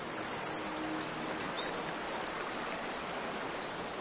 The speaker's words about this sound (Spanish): El mirlo acuático europeo se siente como en casa.